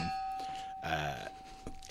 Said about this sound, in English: Our silent producer there kicking the fire extinguisher.